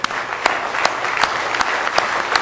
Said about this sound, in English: Let's stand and give Him one more good hand clap of praise tonight.